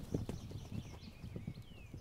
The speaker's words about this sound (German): Noch einmal herrscht Bewegung. Die Herde will zum neugeborenen Fohlen, ist aber entspannter als zuvor.